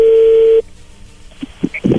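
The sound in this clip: A telephone call being dialed and connecting, with a steady dial tone for about half a second, then a quiet line, followed by a few short tonal blips.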